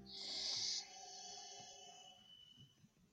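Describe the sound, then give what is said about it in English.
A slow, long breath drawn through closed lips with the throat slightly contracted gives a strong, airy hiss for under a second, then eases off into a faint, low background. “So it sounds a bit more like Darth Vader, the breath. Closed lips.”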